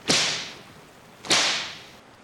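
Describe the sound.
Two sharp cracks of a whip swung hard by sailors aboard a ship, each a bright snapping burst with a fading hiss, spaced just over a second apart.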